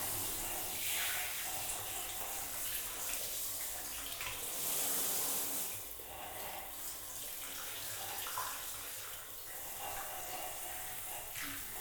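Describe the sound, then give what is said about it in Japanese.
Hot water pours over hair during a hair wash, a steady rushing stream that continues the whole time and briefly swells louder near the middle. No one speaks. “私も最初のこのお湯をかける瞬間が気持ちいいと思う。”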